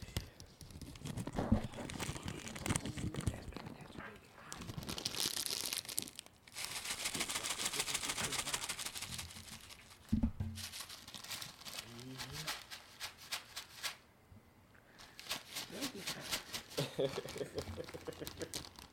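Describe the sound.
Crinkling and rustling of a yellow plastic pack of noodles, irregular crackles and crumples rising and falling in bursts, with voices talking alongside.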